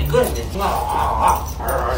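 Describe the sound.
Excited whimpers and yips from a 17-month-old German Shepherd mix dog reunited with its owner at an animal shelter in Oshkosh, Wisconsin. A continuous, high, whining stream of sound runs through the whole clip.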